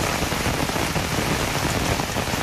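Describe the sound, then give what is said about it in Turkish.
Heavy rain pours down during a downpour in the Fatsa district of Ordu, Turkey, as water pools in the streets. It makes a dense, unbroken hiss that stays loud and even throughout, with no voices. “Ordu'nun Fatsa ilçesinde de sağanak etkiliydi. Cadde ve sokaklarda su birikintileri oluştu.”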